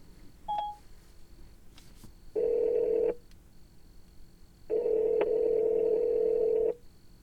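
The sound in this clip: An outgoing telephone call rings out: a brief dialing beep, then two loud, steady electronic ringback tones separated by a pause, the second longer than the first.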